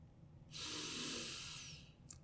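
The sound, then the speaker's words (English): A single deep, slow breath drawn in during a guided meditation, soft and airy and lasting about a second and a half, with no talking over it. “Let's start by taking a nice deep breath in”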